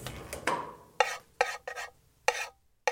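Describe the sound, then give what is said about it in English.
Eggs stir-fried in hot oil in a pan, a spatula scraping and tossing in a series of distinct strokes over a soft sizzle, each stroke a bright, crisp burst with quiet gaps between. “Then, heat some oil in a pan and add the eggs to it. Stir fry for 1 minute.”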